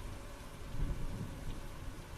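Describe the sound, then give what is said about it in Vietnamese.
Heavy pouring rain outside a house at night, a dense, steady roar of downpour that stays loud and even throughout, with a slight swell in the middle. “bên ngoài chỉ còn tiếng mưa ào ào”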